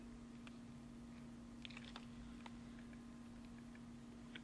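A computer mouse clicks while someone edits tracks in audio software. A few faint, sharp, scattered clicks sit over a steady low hum.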